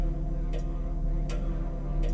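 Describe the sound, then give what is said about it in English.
A clock ticks slowly, three crisp, evenly spaced clicks over a steady, low humming drone that continues without a break. “A ticking clock and a monitor just went on in the corner.”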